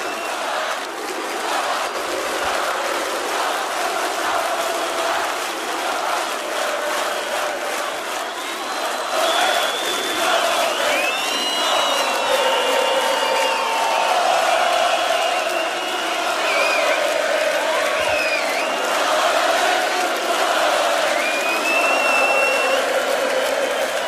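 Festival crowd cheering at an electronic DJ live set at RFM Somnii 2016 in Portugal, a loud, unbroken roar of shouting with whistles and whoops rising through it.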